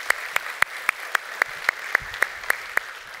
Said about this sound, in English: So if you would, put your hands together. Let's welcome them to our time of study today.